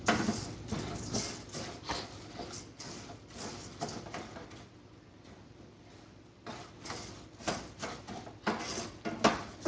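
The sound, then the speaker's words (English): Stirring pasta in a pot on the heat, heard as irregular scraping and clattering strokes that are fairly faint, with a quieter lull midway before the strokes pick up again. “Okay, all the pasta's in, so you just pretty much stir it consistently.”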